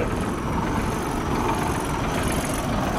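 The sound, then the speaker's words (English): A 1970 military Scammell truck engine runs with a steady, unbroken low rumble and a rough mechanical texture, holding an even loudness throughout, with no voices over it. “70 Scammel? Yeah. Yeah. Military again, listen to it. We're just going to listen to your engine We can listen to your engine, mate, if we can record it.”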